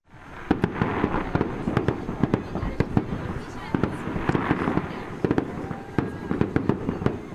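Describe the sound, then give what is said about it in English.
Fireworks burst at a Saturday-night Diwali celebration outside a Hindu temple and cultural center in Shawnee, with many sharp bangs and pops over a continuous crackling rumble, irregularly spaced and loud throughout. “What you hear are fireworks from Saturday night in Shawnee outside the Hindu Temple and Cultural Center.”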